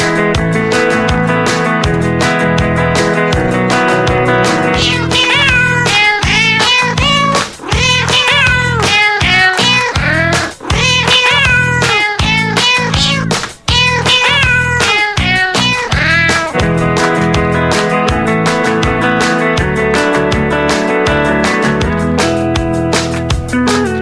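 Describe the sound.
A song built from cat meows, with many pitched meows strung into a continuous melody over a steady rhythmic backing that plays loudly for the whole stretch, broken only by a few brief dips.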